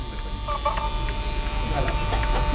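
An Ampex Nagra VPR 5 video recorder runs with its cover open, giving a steady mechanical whir and hum with a constant tonal whine and a few faint ticks.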